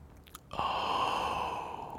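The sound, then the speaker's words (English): A single sustained inhale voiced on an "O" sound during a breathing exercise, starting abruptly and staying airy and breathy for over a second. “We switch to the hey. We continue inhaling on the O sound. So the next round sounds like this.”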